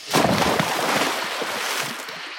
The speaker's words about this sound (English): Okay, I've just fucking landed in the lake then. See, I'm waiting for the effects.